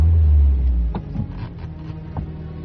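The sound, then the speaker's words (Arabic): A car pulls away on an unpaved road. Its engine rumble is loud at first, then eases into a steady, lower drone mixed with broad road noise. “أركبوها السيارة، فتح الباب الحديدي الكبير، ثم تحركت السيارة على الطريق غير المعبدة.”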